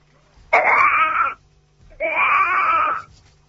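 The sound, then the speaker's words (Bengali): A baby cries in two loud wailing bursts, each about a second long, separated by a short pause, with no other voices. “তোমার বাচ্চার কান্না শুনবা?”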